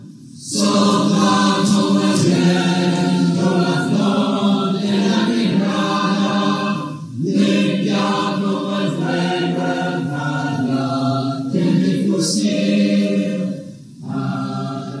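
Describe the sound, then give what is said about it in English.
Mixed-voice choir of transgender, intersex and genderqueer singers, New Voices Bay Area, singing sustained harmonies in several parts, with brief breaths or pauses near the middle and end. “The choir is a mixed voice ensemble for singers who self-identify as transgender, intersex, or genderqueer. And they sound like this.”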